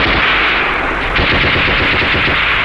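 Loud machine gun fire rattles during a battle. Many rapid shots blur into a dense, continuous burst that keeps going through the whole stretch and gets slightly heavier toward the end.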